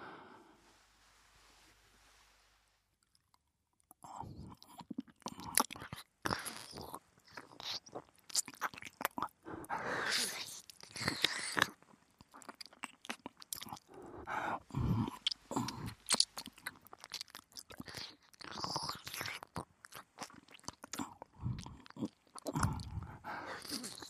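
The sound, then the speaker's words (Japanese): Wet licking and mouth sounds at a right ear: many soft smacks, slurps and clicks in an irregular stream. They follow a nearly silent start of about four seconds and stay quiet throughout, with no speech. “右耳もちゃんと舐めてやるから。髪どかして耳見せろよ。”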